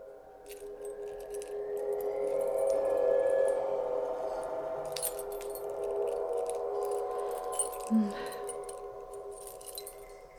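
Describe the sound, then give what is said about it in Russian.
Keys jangle and clink as desk drawers are opened, in scattered bright metallic bursts spread over about ten seconds, with a soft knock near the end. “Сгорая от стыда, я собрала все ключи и решила просмотреть все, что хранится в ящиках его стола.”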